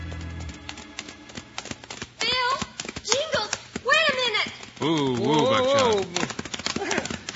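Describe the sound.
Horses ride away with quick clip-clopping hoofbeats, sharp taps running throughout while people talk over them.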